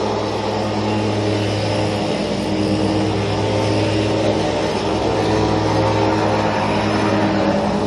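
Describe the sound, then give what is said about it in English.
A riding lawn mower engine runs across the street as a steady, loud, continuous drone that holds an even level throughout, with no breaks or changes in pitch. “Guy on his riding mower just across the street, riding right along with me.”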